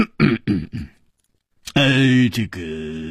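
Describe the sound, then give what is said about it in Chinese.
A man's voice acts out a heavy throat-clearing cough as three quick gruff bursts. A short pause follows, then a man speaks. “秋思王立刻重重地咳嗽了一声”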